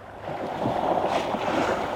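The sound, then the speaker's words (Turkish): Water surging and splashing over people near a shore by deep water, a steady rushing wash that holds loud for about two seconds. “Su üzerinize böyle sıçrarken bu ürkütücü. Ve çok derin.”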